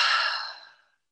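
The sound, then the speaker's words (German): One deep, deliberate breath is let out through the mouth, heard alone as a soft, airy exhale that starts at full strength and then fades away over about a second. “nehmt einmal wirklich einen tiefen, bewussten Atemzug durch die Nase ein und durch den Mund raus.”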